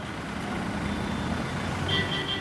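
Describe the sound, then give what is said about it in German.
Low, steady engine rumble of a bus crawling through a traffic jam in the city of Pune, India, with continuous traffic drone around it and a few high-pitched beeps near the end. “Quälend langsam schiebt sich der Bus durch den Stau der Wirtschaftsmetropole Pune.”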